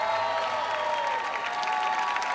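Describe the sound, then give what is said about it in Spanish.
Audience applause for a pair of performers: a steady, dense wash of clapping that holds at an even level throughout. “Fortísimo aplauso para ellas.”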